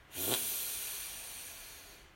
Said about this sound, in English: Again, deep breath in.